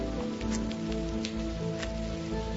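Monsoon rain falling in a steady, dense patter, with a few sharper drops standing out above the continuous hiss at an even level throughout.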